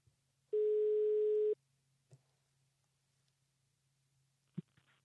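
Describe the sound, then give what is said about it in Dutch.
Telephone ringback tone while a call is being placed: one steady, buzzy ring lasting about a second over a low line hum, followed by a few faint clicks. “laten we hem even bellen en kijken wat hij zegt”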